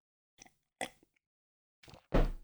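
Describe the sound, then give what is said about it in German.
A sip of tea: a few faint clicks and quiet mouth sounds separated by silence, then a louder, breathy slurp at the end, with no talking. “So, ein Schluck Tee genommen.”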